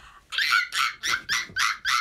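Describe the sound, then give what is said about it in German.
A person imitates a baby monkey with six high, squeaky yelping calls in a steady, evenly spaced rhythm, and no other sounds are heard. “Ist ein Babyaffe. Also das erkennt man, dass es ein Affe ist.”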